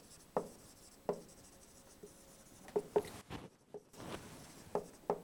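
Handwriting during a lecture: scratchy strokes come in short, separate bursts, a few of them sharper than the rest, with faint scraping between them and no talk.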